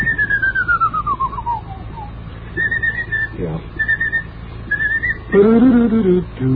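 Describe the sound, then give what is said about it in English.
Someone whistles a tricky passage of a march, opening with a descending run of clear tones, then several short repeated notes. A voice briefly joins at the end. “marches are very difficult to sing, and as a consequence, they're difficult to whistle. It used to be quite a common sight to hear people walking down the street. Well, this particular part is difficult. This.”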